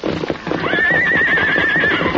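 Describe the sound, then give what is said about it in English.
A big black horse struggling to break loose lets out a long, high, wavering whinny over a loud, busy clatter of stamping hooves that continues throughout. “Look out there! That horse will break leather.”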